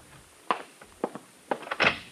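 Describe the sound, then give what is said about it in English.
Someone knocks at the door of a room: a few dull, hollow thuds in an irregular rhythm, with a short cluster near the end, against quiet background hiss. “there was a knock at the door of my room”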